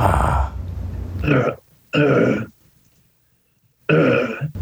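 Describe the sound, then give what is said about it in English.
A person deliberately clears their throat with the mouth open, making a few rough, guttural bursts separated by short silences, the final one strong and raspy. “Try and get that throat clear with the mouth open.”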